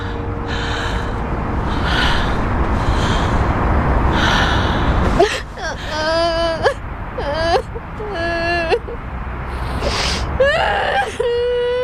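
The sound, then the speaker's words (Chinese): Crying and sobbing: ragged, breathy sniffs and gasps at first, then a series of wavering, high whimpered cries that break and rise in pitch between shaky breaths. “哭什么哭？别哭，让他哭，咱不哭。”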